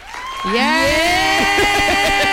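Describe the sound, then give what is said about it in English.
An applause and cheering sound effect: crowd clapping beneath a loud, sustained whooping voice that wavers in pitch, with the cheering staying strong to the end. “I think applause was all we needed.”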